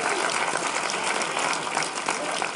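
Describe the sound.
Audience applause at a photography expo fireside chat, a continuous, even wash of clapping at moderate level that holds without a break from start to finish.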